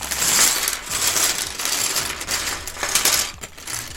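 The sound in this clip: Bag 13 of a building kit, holding two smaller bags, is opened, with crinkling plastic and busy rattling of small pieces in a continuous clatter.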